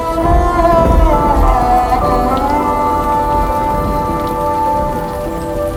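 Rain falls in a dense, even patter of many fine drops. The wash stays loud and constant throughout, with sustained musical tones running beneath it.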